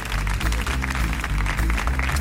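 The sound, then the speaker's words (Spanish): An audience applauds at a Catalan rumba event, steady, dense clapping that stays loud and even throughout, with a low musical hum running beneath it. “vamos a darle este aplauso, esté donde esté Antonio González Pescailla, por regalarnos este soniquetazo de la rumba catalana.”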